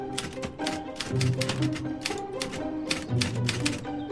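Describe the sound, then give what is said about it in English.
Typing on a typewriter: many rapid, uneven keystrokes clatter in quick bursts, with short pauses between runs of keys. “She sits at the typewriter and purses her lips.”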